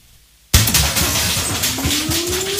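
Earthquake shaking sound effect in a safety drill: after half a second of near quiet, loud rumbling and rattling crashes burst in and continue steadily, with a thin tone slowly rising in pitch underneath toward the end.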